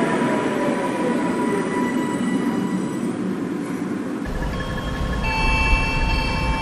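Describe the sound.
Rumbling rail noise of a tram, the 50th new Lajkonik-model vehicle, departing near a depot: a steady dense roar that shifts character partway through, after which sustained motor whine tones emerge and hold to the end.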